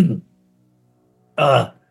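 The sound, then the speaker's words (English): A person clearing their throat, imitated by a voice in a science-fiction tabletop role-playing game: a brief low rumble, a pause, then a louder, raspy clearing burst. “You hear somebody clear their throat.”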